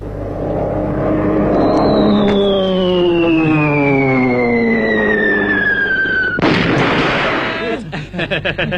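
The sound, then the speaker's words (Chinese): A human voice imitates wartime Japanese warplanes dropping bombs: a long whistling tone slides steadily downward for several seconds, then breaks into a loud, noisy blast followed by rough rumbling. “倒像是日本鬼子飞机啊，啊，是着实厉害，这炸弹是成千上万的往下扔。”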